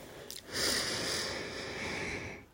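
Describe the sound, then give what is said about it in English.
A deep breath in, a single long, airy inhale lasting about two seconds that swells quickly, then holds steady and fades, with no talking over it. “So take a deep breath with me. I'm grateful that I can take a deep breath, even with COVID.”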